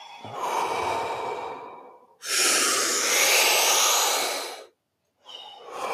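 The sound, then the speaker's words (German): Deep, full breaths during a breathwork exercise: a long, airy inhalation and then a louder, sustained rushing exhalation, a brief silence, and the start of the next breath. “Tiefe, volle Atemzüge.”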